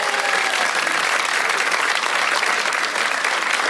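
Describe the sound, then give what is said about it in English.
A studio audience applauds to welcome a guest, a renovation expert, onto a show. The clapping is dense, even and steady at full loudness for the whole stretch, with no voices over it. “We welcome Cherie Barber. Give it up, everyone.”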